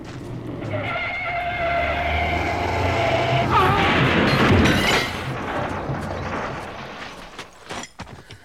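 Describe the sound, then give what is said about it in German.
A speeding car races toward another car, then skids and crashes. A loud, roaring skid builds steadily to a peak, drops away abruptly, and ends in a few scattered sharp knocks. “Der verrückte Kerl jagt genau auf unseren Wagen los!”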